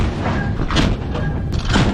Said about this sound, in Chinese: 死死锁住目标，把握住了舰船的晃动规律。 枪式射击，放！